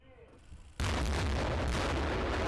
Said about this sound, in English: Ukrainian troops fired the 120mm guns of their Leopard tanks at a German shooting range on Monday.